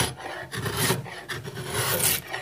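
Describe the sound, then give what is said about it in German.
A knife is drawn repeatedly across a piece of light wood clamped in a vice during a carving competition, sending chips flying: a steady, rough rasping scrape in a run of strokes broken by brief pauses, with no talk. “Späne fliegen zur Seite. Gerhard Wiedemann zieht sein Messer über ein in den Schraubstock gespanntes Stück Holz.”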